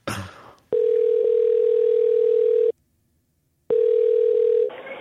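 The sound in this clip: A telephone line tone sounds after a number is dialed to order pizza. A brief noisy burst comes first, then a steady tone of about two seconds, a silent gap, and a second, shorter tone.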